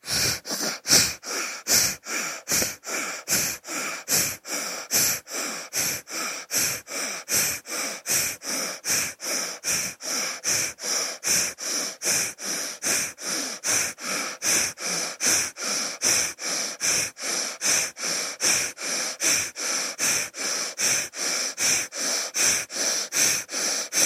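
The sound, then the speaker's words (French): Alternate nostril breathing exercise: many steady, airy inhales and exhales through the nose in an even, regular rhythm, with no talk. “expire, toujours à gauche, inspire, change de narine, ferme la gauche et on y va directement à droite.”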